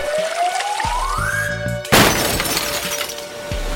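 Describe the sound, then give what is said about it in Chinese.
Clay jars filled with well water fall and shatter. A rising whistle leads into one loud, sharp shattering crash, followed by a brief spray of breaking debris. “陶罐落地就碎裂了，罐子里的水浇灭了烈火。”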